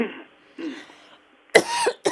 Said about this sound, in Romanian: Uitați, acum și eu tușesc un pic.